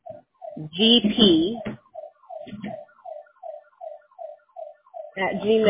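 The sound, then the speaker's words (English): A car alarm sounds as many short, regular electronic chirps in a steady rhythm, with people talking over it at the start and the end. “Sorry about that. I think that's somebody's car alarm.”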